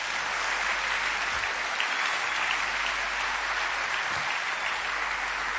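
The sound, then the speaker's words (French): Sustained applause from a church audience acclaiming the Lord during a service, an even, dense rush of clapping that holds steady throughout with no talk. “Acclamons le Seigneur.”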